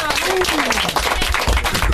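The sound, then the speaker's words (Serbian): An audience at a concert event at a youth centre claps in a dense, lively, continuous round of applause. Sharp overlapping hand claps keep a fairly constant level. “Aplauz za Milan.”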